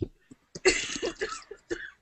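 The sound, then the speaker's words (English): A brief coughing fit: several rough, harsh coughs and throat-clearing bursts come in quick, uneven succession at moderate loudness, with no talking. “When they're having a coughing fit.”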